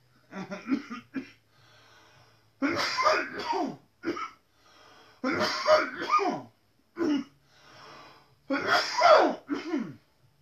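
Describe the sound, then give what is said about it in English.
A man coughs in several harsh, rough bursts separated by short pauses, some bursts clustered into fits. “I think that's why I'm coughing.”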